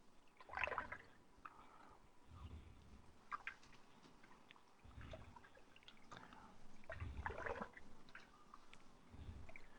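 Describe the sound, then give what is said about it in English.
Soft, wet squishing and sloshing as a pot of food is stirred while cooking, faint and uneven, with a few louder swells of liquid movement. “Okay. I'll stir this up a little bit.”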